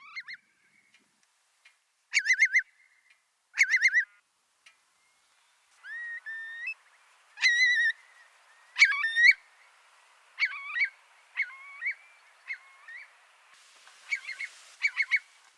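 A bird's breeding call recorded on the Somerset Levels comes as separated bubbling, whistled bursts, some rising in pitch, and the bursts come closer together toward the end.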